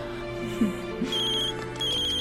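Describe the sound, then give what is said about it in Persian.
A phone ringtone signals an incoming call with a short electronic ringing melody. The steady tone sits over a faint background. “مرینت باید تماس دوستتو جواب بدی آدری.”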